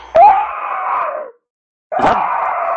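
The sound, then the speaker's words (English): A voice imitates a Saurian's screaming battle cry in a Leopard Women of Venus game session: two loud, drawn-out, rasping screams, each opening with a sharp burst and separated by a short silence. “I wonder what kind of a screaming battle cry a Saurian would make.”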